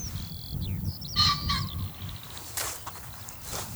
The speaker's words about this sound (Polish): O, jest bażant.